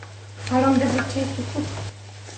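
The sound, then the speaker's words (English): Soy milk being stirred into a sauce in a pan just taken off the heat. Soft swirling and scraping sounds blend with a faint sizzle over a steady low hum, and a voice talks briefly over them. “just work the milk into the sauce. Just mixing to ensure that there aren't any lumps in there.”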